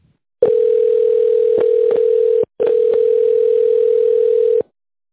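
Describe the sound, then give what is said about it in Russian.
A telephone ringing tone heard while waiting on hold: two long, steady, loud mid-pitched tones, each about two seconds long and separated by a very brief break, with no voices. “Оставайтесь на линии, вам ответит офис-менеджер.”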